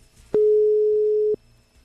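A telephone line tone heard while trying to call on a landline: a single loud, steady beep lasting about a second, with no other sound around it.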